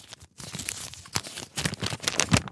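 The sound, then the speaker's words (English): Paper tearing as a letter is opened, a few quick rustling rips and crinkles in short uneven bursts, moderately loud with no talk. “And so he opens up the letter.”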